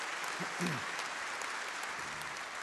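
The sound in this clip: An audience applauds to welcome a speaker: dense, even clapping holds at a steady level from start to finish.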